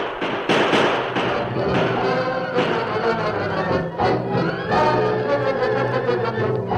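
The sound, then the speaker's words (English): Gunshots fired at a cattle herd, several sharp cracks breaking through a dense, loud, continuous rumbling wash of sound that runs throughout. “The longhorn that was leading the herd had tried to turn away from the pass before the Lone Ranger started firing.”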